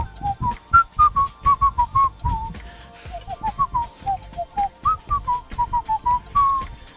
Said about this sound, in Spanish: la canción inicial de eso yo la silbaba cuando era niño, me acuerdo. Sílvela otra vez. A ver, silba.